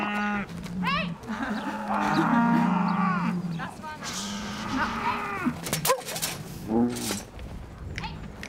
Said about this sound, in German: Und dann stehen da noch die anderen Milchkühe auf der Weide nebenan. Die sehen sie jetzt zum ersten Mal und freuen sich anscheinend.